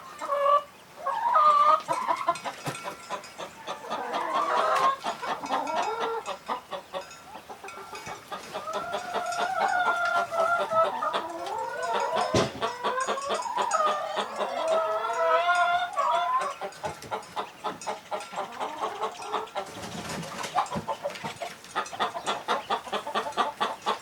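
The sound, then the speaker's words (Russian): A chicken clucking almost nonstop: many loud, choppy clucks and squawky calls in irregular bursts, with a few brief pauses between runs. “Курица. Курица.”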